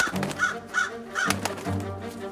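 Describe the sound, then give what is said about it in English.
Raven cawing while trapped inside a sack, a few short, harsh caws in a quick series over a low rumble. “Inside the sack, the raven erupted into a deafening flurry of feathers and caws.”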